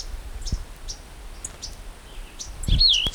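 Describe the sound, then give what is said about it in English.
Birds calling: a few short, high chirps scattered through a quiet background, then a brief warbling whistle near the end, with no talk. “Two birds.”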